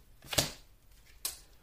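Tarot cards are drawn from a deck in two crisp, papery snaps, a sharp one near the start and a second nearly a second later, against near silence.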